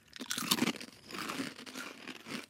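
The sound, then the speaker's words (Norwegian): Crunching Burger King flavoured potato chips: brittle, crackly bites followed by continued chewing, loud at first, then settling into softer, uneven crunches. “Skal vi smake på en chips først, og så på ketsjup etterpå?”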